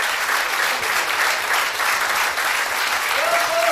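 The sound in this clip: An audience applauds after a live song performed on a Polish radio programme: a dense, steady patter of many hands at even loudness throughout, with no talk over it.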